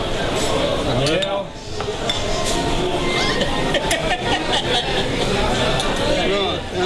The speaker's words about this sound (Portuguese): Deixa esse copo aí